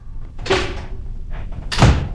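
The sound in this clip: Door opening as a latch is pulled, a radio play sound effect for a Little Red Riding Hood scene: two clattering wooden bursts about a second apart over a low hum, with no voices.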